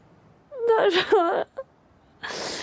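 A woman suddenly bursts into crying, a wavering, moaning wail with bending pitch that lasts about a second. A short catch of breath follows, then a breathy, hissing exhale.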